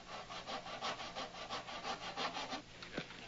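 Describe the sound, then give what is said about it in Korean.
A hand saw cuts through the heels of women's high-heeled shoes in a steady back-and-forth rhythm. Its many quick rasping strokes are fairly faint, and no voices are heard. “톱으로 구두 뒤축을 모조리 자르고 있습니다. 색색까지인 아내의 하이힐을 수십 컬레 꺼내놓고 이를 악물며 톱질을 하고 있는 것입니다.”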